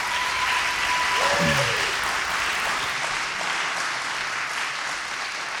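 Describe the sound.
A church audience claps warmly on a cold Christmas Day service in coastal Alabama to welcome newcomers, a steady, even wash of applause that carries on throughout and eases off only slightly near the end.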